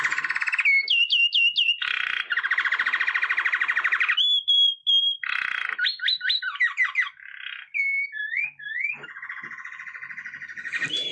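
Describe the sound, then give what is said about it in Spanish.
A saffron finch sings alone in loud, bright phrases of chirps, whistled slurs and buzzy trills, with brief pauses between phrases. “El jilguero dorado que estamos escuchando es una de las aves más conocidas de la Argentina”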